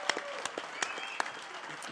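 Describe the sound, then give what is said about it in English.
Audience applause greeting a Pro Bowl football player as he joins the show, a steady wash of many overlapping claps at moderate loudness, with crowd noise mixed in. “How about a big, loud welcome and a big hand for Cordarrelle Patterson, everybody.”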